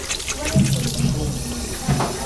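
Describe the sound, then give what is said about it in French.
Tap water runs from a faucet while children rinse soap off their hands at a sink, a steady moderate hiss with light splashing that swells briefly at moments as hands move under the stream. “On va mettre encore un petit peu sous l'eau. Tout enlever la mousse.”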